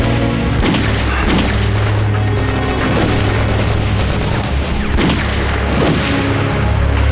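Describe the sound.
Heavy gunfire with shots fired at a person: many loud shots and booming blasts in a dense, continuous barrage that runs the whole stretch without letup.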